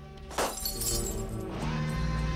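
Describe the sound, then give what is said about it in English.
A light bulb is smashed with a quick, bright glassy shatter and tinkle, heard over steady background music. “one of the car guys reaches up and smashes a light bulb.”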